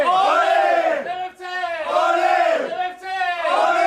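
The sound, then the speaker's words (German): A loud battle cry from a men's dance group at a Bavarian championship for men's dance groups, as a group of men shouts in unison. There are three long chanted phrases with a crowd-like fullness, each swelling and then dipping briefly before the next. “So klingt der Schlachtruf der Pfundigen.”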